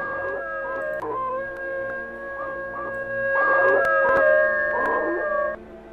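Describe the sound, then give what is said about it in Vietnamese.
A neighbour's dog howls like a wolf at night, long drawn-out wavering tones that rise and fall, repeated in a continuous mournful chorus with no voices. “Phía xa xa, chó nhà hàng xóm chu lên liên hồi như là chó sói vậy.”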